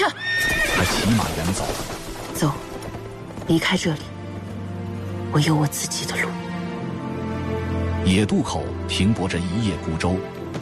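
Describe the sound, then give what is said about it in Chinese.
A horse whinnies a few times with high, wavering calls while its hooves clip-clop steadily beneath, as a woman leads it to a halt under a tree, with a constant low hum running throughout. “任盈盈牵马停在树下”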